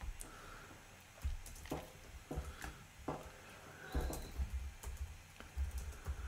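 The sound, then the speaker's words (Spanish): Someone types on a computer keyboard, producing many soft, irregular key clicks in uneven bursts, faint over a steady background hiss. “¿Qué suena, weón? El teclado, po.”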